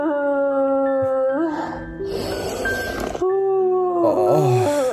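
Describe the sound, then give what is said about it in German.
A person wails and cries loudly in exaggerated, drawn-out howls, the voice sliding up and down in pitch with breathy, noisy sobbing bursts between the long tones. “Moment, ich muss heulen.”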